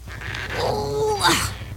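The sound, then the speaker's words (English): A person groans with strain while trying to force open a stuck jar in a kitchen: a drawn-out, wavering vocal effort that swells and then trails off with a brief, higher strained note. “I wish I could get this stupid jar open. Jars can be tough, am I right?”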